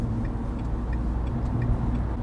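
A car drives along a motorway in France, making a steady, loud low road rumble with faint, regular ticking above it.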